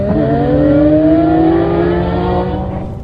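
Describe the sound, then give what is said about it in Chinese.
Race cars roaring away from the start of a race held in a deep mine pit, a loud, steady engine drone whose pitch climbs as they accelerate, fading slightly at the very end. “一辆辆赛车飞驰而出，却不敢想象的飞尘爆土”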